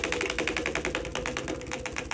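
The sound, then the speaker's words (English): A spinning prize wheel ticks rapidly against its pointer, many sharp, even clicks per second in a continuous run at moderate volume. “All right, it's spinning.”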